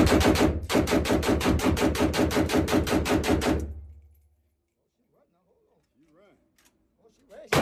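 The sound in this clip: Rapid gunfire from a firearm being test-fired: one long continuous burst of many sharp, evenly spaced shots lasting about three seconds, then a drop to near silence with a few faint noises.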